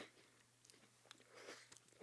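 Faint, crisp chewing of a cinnamon cookie, with a few small crunches and bites scattered irregularly through otherwise quiet moments.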